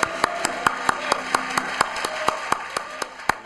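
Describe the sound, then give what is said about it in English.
Audience applause for a performer at a gospel-style gathering: crisp claps in a steady, even rhythm, each one sharp and distinct, carrying alone with no talk over it. “Let's give him another hand.”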